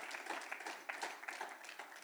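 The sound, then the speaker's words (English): A church audience claps in praise during a morning service. Many hands clap in a dense, continuous patter at moderate loudness, without a clear shared beat. “Please stand this morning and give the Lord a praise, a clap offering this morning.”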